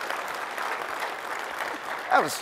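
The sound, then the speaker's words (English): Audience applause during a tech conference talk, a moderate, steady patter of clapping that runs throughout, with a brief voice rising over it near the end. “That's totally worthy of applause.”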